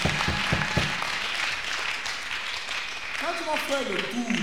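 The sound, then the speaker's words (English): Congregation clapping at a church fasting-service gathering, a brisk burst of many hands near the start that continues more loosely underneath, with a voice rising over it toward the end. “Let us clap for the Lord.”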